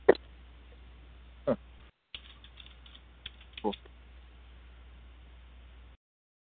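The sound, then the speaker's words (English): Typing on a computer keyboard while editing text: a few scattered, faint key clicks over a low, steady hiss. “Oh, did I type the wrong conference? Now I got to edit that shit.”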